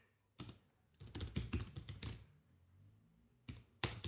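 Keys clatter on a computer keyboard as a message is typed. Quick bursts of keystrokes, one long run in the middle, are separated by short silent pauses. The typing is fairly quiet, with no talk.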